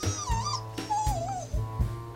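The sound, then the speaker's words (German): A dog whimpering at a graveside: thin, high whines that waver up and down in pitch, two long plaintive cries with shorter ones around them, over low, regular pulsing sounds. “Was hat denn der Hund?”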